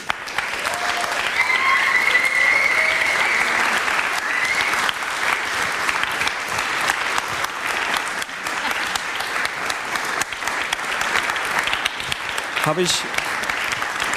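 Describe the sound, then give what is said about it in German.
Warm applause from an audience honouring a volunteer organising team, a dense, even roar of many hands clapping that holds steady and loud for the whole stretch without fading. “einfach mal dieses hervorragende ehrenamtliche Organisationsteam mit einem herzlichen Beifall”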